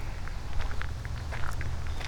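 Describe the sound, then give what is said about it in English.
Footsteps of a person walking along a little path: many soft, steady steps in an even rhythm over a low rumble, with no talk. “Well, I'm still walking along this little path here,”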